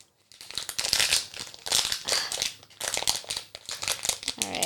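A wrapper is torn open with loud, continuous crinkling and crackling, coming in repeated rustling bursts and brief pauses, with no one speaking.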